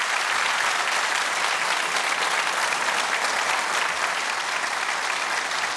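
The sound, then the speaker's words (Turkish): Steady audience applause for the musicians after a halay folk dance performance: dense, even clapping that holds at full loudness throughout, with no voices over it. “Efendim şöyle üstadlara alkışlar sırayla.”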